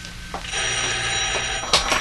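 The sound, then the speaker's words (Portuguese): A telephone rings with a sustained, bright, bell-like tone that holds for about a second before breaking off. “Deve ser o Dr. Alex. Aí, eu vou atender.”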